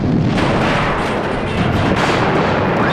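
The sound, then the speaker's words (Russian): Explosions from a falling bomb blowing up a railway wagon beside a long row of black metal barrels in a war film scene: a dense, loud, rumbling roar with a few sharper blasts breaking through. “Упавшая бомба взрывает вагон, стоящий около длинного ряда черных металлических бочек.”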